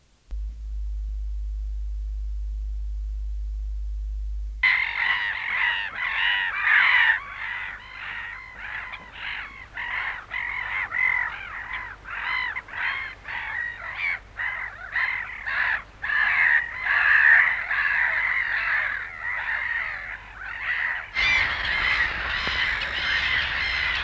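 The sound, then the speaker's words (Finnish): Harsh, rapid chattering calls of a magpie repeat many times in a loud, rattling series. A steady low hum runs alone for the first few seconds before the calls begin. “Harakka.”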